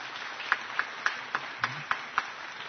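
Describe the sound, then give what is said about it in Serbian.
Faint, evenly spaced clapping in a studio during a music talk programme: seven crisp claps at a steady, slightly quick pace, like a brief polite round of applause. “Ja bih se zahvalio i lično ovdje u studiju gospodin Milosavljević i molit ću za mali aplauz.”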